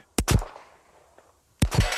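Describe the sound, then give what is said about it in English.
Pistol shots during a police firearms qualification: a few sharp, loud reports in two close clusters, separated by a quiet gap of over a second. “Once a year, every officer has to qualify with firearms in order to use their pistol on duty.”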